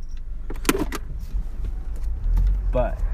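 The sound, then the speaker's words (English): A car's gear shifter rattling and clicking while driving, set against a steady low road and engine rumble, with a few short light ticks and brief voice sounds. “And you hear the noise that's making now? My shifter?”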